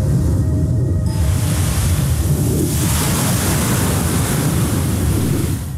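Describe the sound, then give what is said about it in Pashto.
Sea waves and wind on a sandy beach: a loud, unbroken roar of surf mixed with rushing gusts. The sound thickens after the first second and then stays full and steady to the end. “د شمال له پښها او د څپو له څړپه پرته ژغ ژغ نه و.”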